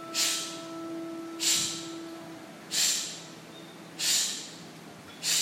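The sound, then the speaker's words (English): Five sharp, forceful exhalations through the nose as the navel is pumped in, each a short hissing burst, evenly spaced about every second and a bit, over a faint steady hum. “And you exhale with a strong burst outward, and as you exhale, you pump the navel in at the same time, like so.”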